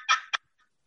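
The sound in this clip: A turkey box call imitates a wild turkey with two short, raspy yelps, the first longer than the second, followed by quiet.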